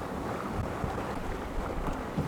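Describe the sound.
Steady wind and rushing water on a sailboat under sail at sea, a continuous, even wash of noise with no voices.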